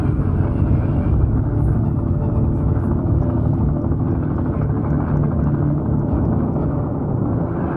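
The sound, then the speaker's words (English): A helicopter's rotor and engine drone runs unbroken from a shark movie soundtrack. The rumble is loud, dense and low, with no pauses or clear changes in pitch. “That's like the Magnum PI chopper right there.”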